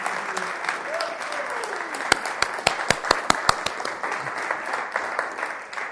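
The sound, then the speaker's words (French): An audience applauding at a church worship service, with dense, steady clapping throughout and a run of sharper, louder claps in the middle. Voices mingle with the applause. “Si vous voulez bien, on va acclamer le nom de Jésus et puis en même temps remercier le Seigneur.”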